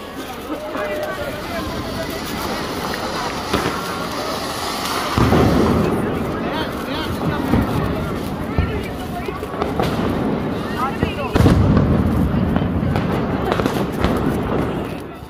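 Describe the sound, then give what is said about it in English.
Firecrackers explode during Diwali in New Delhi, a dense, continuous crackle of pops and bangs with louder surges partway through and near the end, with voices in the background. “Everyone is buying firecrackers or even just stuff that makes a lot of noise. Yeah. So we have a little sound clip for you just to listen in.”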